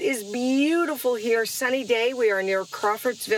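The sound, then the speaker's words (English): Crickets on a farm near Crawfordsville, Indiana, give a faint, steady high trilling under a person speaking throughout. “Can you hear the crickets in the background?”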